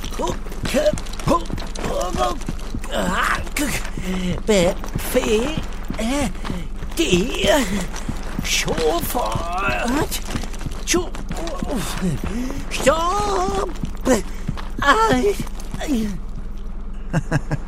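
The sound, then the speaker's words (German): Quick, steady running footsteps on a ship in a radio play, an even patter of steps continuing throughout beneath a narrator's voice. “Lisa hat davon gar nichts mitbekommen. Sie rennt und rennt einfach immer weiter zu ihrer Mama.”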